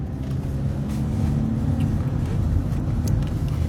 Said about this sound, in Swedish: Och vi närmar oss slutet på den här bilresan. Jag tappar koncentrationen och kör fel.